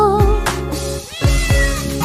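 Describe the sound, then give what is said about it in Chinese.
A singing voice imitates a cat's meows in a pop song, with a few short sung meow syllables carried over steady musical accompaniment. “我们一起学猫叫，一起喵喵喵喵喵”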